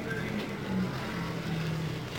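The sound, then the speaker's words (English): A race car rolls past on the track during a race, heard as a faint, steady engine drone with a thin tonal hum. There is no sharp pass-by peak and no voices. “Still on the track, rolling by in front of us”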